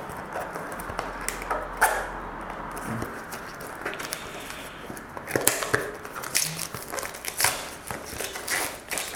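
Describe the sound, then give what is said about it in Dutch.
Crinkling and rustling of plastic foil wrapping pulled off an LED lamp with a built-in Bluetooth speaker: irregular, fairly faint crackles and scrapes with a few sharper snaps, and no talking. “En nu komen we bij de ledlamp zelf. Even open doen. Heb dit nog eens ingepakt in een soort van folie.”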